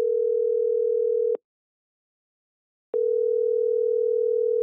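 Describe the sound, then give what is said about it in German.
Telephone line tone as a call is put through: a steady mid-pitched tone sounds, cuts out for about a second and a half, then resumes, with no voices. “das ist auch schon wieder Zeit, dass wir die anrufen, weil jetzt haben wir den Gesprächstermin. Na, dann stell es mal durch.”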